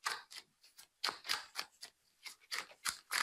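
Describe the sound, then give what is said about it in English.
Cards being handled for ASMR: many crisp, close snaps and papery flicks in an irregular rhythm, each a short sharp burst with quiet gaps between, no voices. “Time for the card ASMR. Oh, yes. Those cards are so beautiful.”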